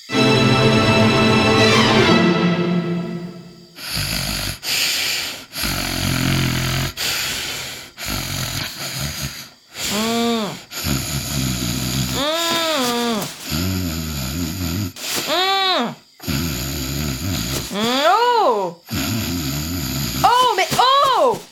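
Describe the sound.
A person snores while asleep at night. Many loud, rhythmic snoring bursts repeat every second or two, some with wavering whistle-like tones rising and falling between them.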